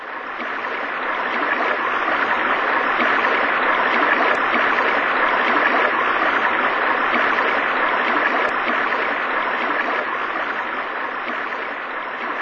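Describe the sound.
A small stream flowing, a steady, unbroken rush of water that holds an even, moderately loud level throughout, heard alone.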